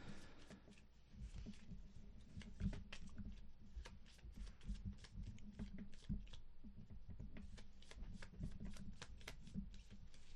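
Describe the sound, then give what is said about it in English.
Playing cards shuffled suit by suit, spades and clubs: a faint, steady run of quick papery riffles and flicks lasting about ten seconds. “shuffle the spades, and then shuffle the clubs, and then put the clubs on top of the spades”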